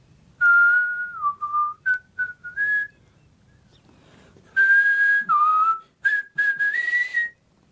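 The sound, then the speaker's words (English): A person whistles a tune in clear, steady notes, with a few short phrases, a pause, then a second run of phrases that climbs at the end. “I taught you how to whistle. Don't you remember?”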